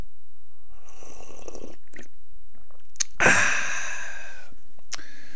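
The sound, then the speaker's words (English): A small sip of coffee: one brief, breathy slurp rises sharply midway through otherwise near-silence, with faint soft mouth noises around it. “That's the sound of a little coffee to start this day.”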